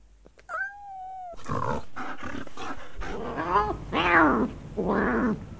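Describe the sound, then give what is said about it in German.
A cat squaring off against a dog: a drawn-out feline yowl opens, then harsh snarls, growls and hisses trade back and forth in several loud, rough bursts that grow fiercer toward the end. “Das war eine Katze, die sich mit einem Hund anlegt. Richtig, das war natürlich Tatsache? Ein kleines Drama zwischen Hund und Katze.”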